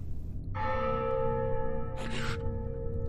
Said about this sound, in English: The clock rang 11.